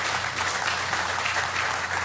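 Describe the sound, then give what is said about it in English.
An audience claps at a teaching session, giving a dense, steady wash of applause that stays even in loudness throughout, with no voices over it. “Yeah, you can clap for that.”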